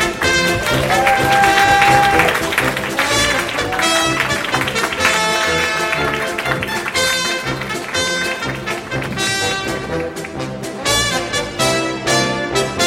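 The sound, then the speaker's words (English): A brassy, upbeat theme tune plays loudly as a guest walks on stage at a live show, with applause and crowd noise mixed in throughout. “Theme tune's a bit long. You're gonna fade it out.”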